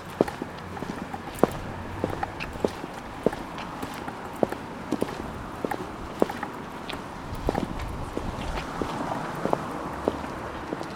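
Footsteps of people walking up a high street toward a war memorial, many steady, crisp steps on hard ground over a low background hum.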